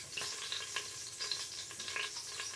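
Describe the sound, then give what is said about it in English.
Faint sizzling and stirring as an Instant Pot is deglazed after browning two steaks in olive oil, a steady hiss dotted with many light scraping ticks, with no talk. “You can now deglaze the Instant Pot.”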